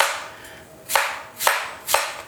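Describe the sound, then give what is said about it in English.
Knife slicing an apple with a fancy Japanese knife: three crisp, sharp cuts land at an even, unhurried pace, each a brief bright snap against quiet. “Oh, your fancy knife. I love this fancy Japanese slice knife. Slice them for you.”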